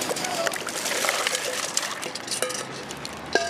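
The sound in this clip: Ice water splashes from a bucket poured over a person on a Manhattan street in New York during the ice bucket challenge. A wash of splashing and sloshing water runs for a few seconds at moderate loudness.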